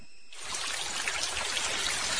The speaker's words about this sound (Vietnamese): Ngoài trời mưa càng lúc càng to.